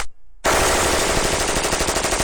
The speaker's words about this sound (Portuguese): Ele tá atirando pra todo lado